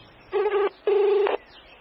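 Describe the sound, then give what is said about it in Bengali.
Tones from a mobile phone as a number is dialled: two sustained, buzzing electronic tones of equal length separated by a short gap, fairly loud against a quiet background. “Pocket থেকে ফোনটা বের করে দ্রুত আঙুল চালিয়ে কাউকে একটা phone করলেন তিনি।”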